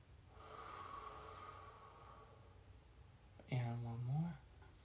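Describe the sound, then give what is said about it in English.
A deep breath taken together on a count of three, quiet and breathy at first, then a louder voiced sigh as the air is let out near the end. “remember we said we're going to take a nice deep breath all together every time. So let's do that right now. Ready? 1, 2, 3.”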